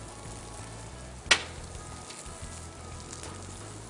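Eggs frying in olive oil in a pan give a steady, soft crackling sizzle that holds even throughout, broken by one brief sharp tick partway through.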